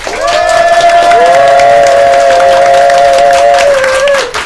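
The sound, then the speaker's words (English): A live audience at the China Institute in Manhattan cheers and makes noise: loud, sustained whooping, whistling and clapping that swells and holds steady before trailing off at the end. “Let's hear you folks make a little noise.”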